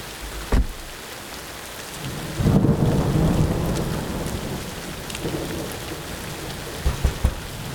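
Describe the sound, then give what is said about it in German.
A thunderstorm with rain hissing steadily throughout, a sharp thunder crack early on, then a long, deep rolling rumble of thunder and a few sharper crackles near the end. “Dicke Gewitterwolken hatten sich in den letzten Stunden zusammengezogen. Irgendwann musste sich die unerträglich angestaute Hitze der letzten Tage ja entladen.”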